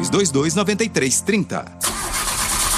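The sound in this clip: A car engine cranks and struggles to start, a rough, steady grinding noise that follows a short spoken exclamation.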